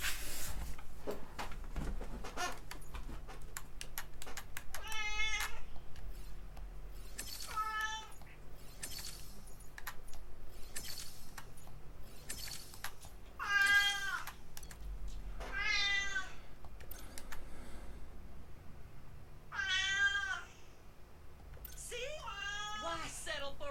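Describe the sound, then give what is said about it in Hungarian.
A cat meows about six times over a faint low hum, each cry a short, wavering call spaced a few seconds apart. “Közben megérkezett közénk Oberon is, aki most kitakarja a teljes képernyőt, köszönöm szépen, Cica, egy ajándék vagy az élettől.”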